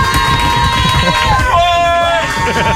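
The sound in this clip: A live studio audience at an evening show shouts and cheers. A sustained, piercing high-pitched scream rises above dense crowd noise and excited voices, at a loud and steady level.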